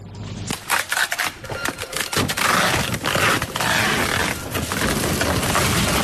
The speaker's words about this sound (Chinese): 马燕儿忙着打包需要快递的货品，海燕对着电脑里的下单记录一张张打印快递单